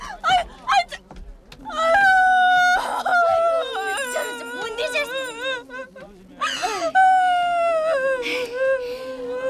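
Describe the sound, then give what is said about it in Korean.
A woman cries and wails, with gasps, sobs and long, wavering high-pitched wails coming in loud, uneven bursts. “우는 사람한테 하기 미안한 말이지만도 울지 마이소.”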